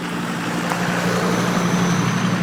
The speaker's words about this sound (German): Achtung, es fährt hier nochmal ein Auto an mir vorbei. Ich hoffe, das ist nicht zu laut.